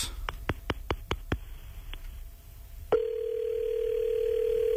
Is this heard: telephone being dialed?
yes